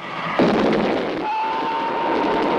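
A train streaks past with a sudden loud rushing roar that holds steady, and a sustained high tone runs through the second half.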